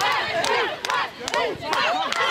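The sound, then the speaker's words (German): Loud crowd cheering and shouting for the UH Adler women's team, with voices rising and falling in sustained surges and a brief dip midway. “Also Jubel und Applaus gibt's ohnehin schon für die Mädels.”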